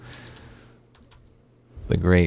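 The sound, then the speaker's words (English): A few faint, light keystrokes on a computer keyboard over a low hum, followed by a voice starting to speak. “Now I gotta type it in because it's bothering me.”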